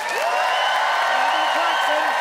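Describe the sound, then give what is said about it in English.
An audience at a live radio show applauds a contestant, a dense, steady wash of clapping with a few voices whooping and calling out over it. “it is up to the audience to decide by applause who felt that Gavin's hiking harangue talked the talk and walked the walk.”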